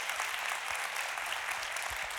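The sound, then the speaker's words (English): A church audience applauds its departing campus pastor as he walks out. The dense, even clapping holds steady and fairly soft throughout, with no voices standing out. “As he walks out, will you give him a big thank you and round of applause? Come on, let's go.”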